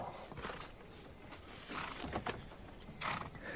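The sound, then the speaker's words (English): A horse-drawn buggy comes to a stop, with faint, irregular clip-clopping hooves and a few soft rattles. “will you stop the buggy now? Whoa.”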